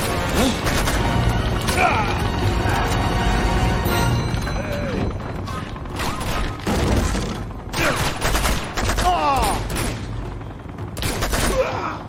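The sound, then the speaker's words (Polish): Bursts of automatic gunfire from a helicopter in a video game: several rapid, loud volleys crackle over a dense, continuous layer of game noise. “Tam jest ten helikopter. On takimi seriami, widzicie, strzela.”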